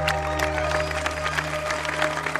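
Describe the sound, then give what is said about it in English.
Crowd applause after a football match: brisk, uneven clapping from many hands over a steady low hum, moderately loud with no voices. “Guys, give yourself a round of applause.”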